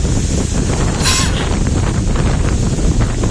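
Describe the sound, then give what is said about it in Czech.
Strong gale wind roars into the camera microphone on a holiday in Crete, making a loud, continuous, buffeting rush with no pauses and no voices. “Totální fujavice, totální fujavice.”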